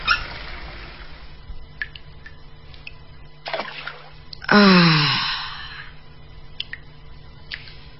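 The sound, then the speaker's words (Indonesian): A tap squeals as it is turned off over a bathtub full of warm water, giving a loud, harmonic screech that falls in pitch and fades. Faint splashes and small clicks come before and after. “Air hangat di bathtub sudah penuh. Aku lalu mematikan keran airnya.”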